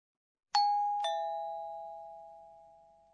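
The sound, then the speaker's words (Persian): A two-note ding-dong chime like the Japanese 'pin-pon' bell rung for a correct answer on a quiz show. A bright first strike is followed half a second later by a slightly lower tone, and both ring on and fade slowly. “خب این صدای زنگ هستش. در زبان ژاپنی یه واژه برای توصیف اون داریم. پیم پوم.”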